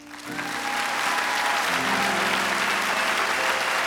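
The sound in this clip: A studio audience applauds to welcome a guest onto the eTown show: the clapping swells quickly at the start into a loud, dense, sustained roar of many hands that holds evenly to the end.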